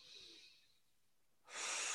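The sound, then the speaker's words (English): A person takes a breath: a soft airy breath at the start fades into near silence, then a loud rushing breath fills the last half second, with no talking. “Take a breath.”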